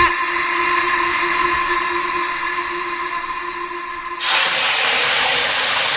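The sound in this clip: Hot cooking oil splattering in a pan gives a steady, bright sizzling hiss that suddenly jumps louder near the end and keeps going, with no talking.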